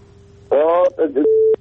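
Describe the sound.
Telephone line tones as a call is dialed: a faint steady tone, then short loud bursts of sound, ending in a strong steady tone that stops abruptly.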